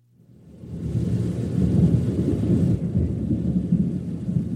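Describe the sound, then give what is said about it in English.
Thunder rolls in during a rainy storm, swelling over the first second into a loud, broad low rumble with a hissing wash on top, then holding steady and roaring on to the end. “Give me the thunder. Give me thunder.”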